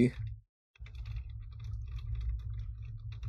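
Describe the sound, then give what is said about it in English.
Typing on a computer keyboard: many quick, irregular light clicks over a steady low hum, with a short silent gap near the start. “Yeah, I'm doing that now. That's why you can hear me typing, everybody.”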